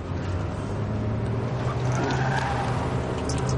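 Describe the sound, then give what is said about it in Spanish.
A Cadillac car driving through the city, with loud, continuous engine and road noise that holds steady throughout without any clear breaks. “Conduce el Cadillac por la ciudad.”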